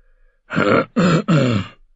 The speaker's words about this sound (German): Simon Templeton räusperte sich.